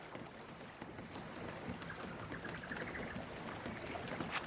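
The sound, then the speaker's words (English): A small tiller-steered boat moves across water, heard as a faint, steady wash of water with a soft wind-like rush and no voices. “The boat angles toward a tumble-down ruin standing just above the water's surface.”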